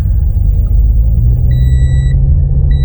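A car engine rumbles as the car sets off, a loud, steady, low drone throughout. A thin high electronic tone sounds twice over it.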